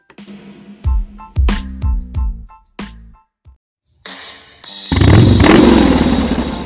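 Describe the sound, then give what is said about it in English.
A motor engine revs loudly, ending in a sustained, rough roar that follows several heavy, percussive thumps and short bursts. “crank up that motor. Feel the rush.”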